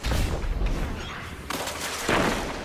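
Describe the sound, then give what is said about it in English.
Grenade launcher blasts in a multiplayer shooter video game, fired by a warlock player, a few heavy booming detonations with sharp onsets and rumbling tails, overlapping one another. “He's hitting us with grenade launchers. That warlock is just hitting people with grenade launchers.”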